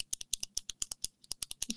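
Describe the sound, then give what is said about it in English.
Rapid pen clicking in a silent theater, many sharp faint clicks in quick succession, alone without any voices. “People hate the clicking of a pen.”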